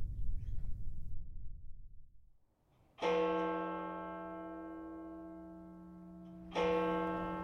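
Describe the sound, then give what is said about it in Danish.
A clock bell striking twelve, with two deep, resonant strokes a few seconds apart. Each stroke rings on in a long, sustained, humming tone. Low rumbling noise comes before the first stroke. “Klokken slår 12.”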